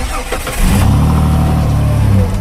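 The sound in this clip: Fast motorboat engine starting on a river, a loud low rumble that catches after a moment and settles into a steady throbbing drone.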